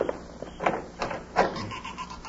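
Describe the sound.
A door creaking open at a house at night, a few groaning, drawn-out squeaks rising out of quiet background hiss, moderately loud.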